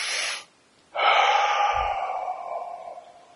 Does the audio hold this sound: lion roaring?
no